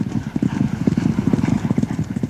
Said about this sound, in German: Und genau ein Pferd galoppiert übers Geläuf.